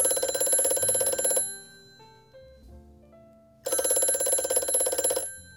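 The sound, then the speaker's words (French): Telephone ringing in two long, bright bursts of about a second and a half each, separated by a quiet gap that holds a few faint, low tones. “C'est dans un de ces moments qu'elle prend la décision d'appeler Suze.”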